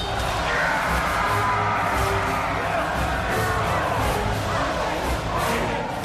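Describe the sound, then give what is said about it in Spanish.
Crowd cheering and acclaiming a victorious fighter, an ancient toga-clad audience, forming a dense, unbroken roar of many voices at constant loudness from start to finish. “Eran ya muchas victorias y el pueblo le quería, le aclamaba.”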